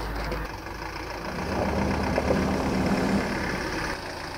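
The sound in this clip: A car engine idles after pulling up, a steady low rumble with a broad noisy hiss that grows slightly louder in the middle and stays even to the end.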